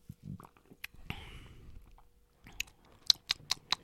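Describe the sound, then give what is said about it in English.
Gulping as someone chugs a beer: soft wet mouth and swallowing noises, then a run of four short, sharp gulps close together at the end. “You think you could slam these beers? Ooh, we're going to find out. Let's go. Chug. Put it down.”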